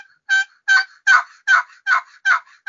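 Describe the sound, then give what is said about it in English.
Raspy turkey yelps from a box call, worked by running its paddle. Seven loud, evenly spaced yelps sound at a steady rhythm, the last one cut off at the end. “he grabs the paddle for the call, and he starts running the box”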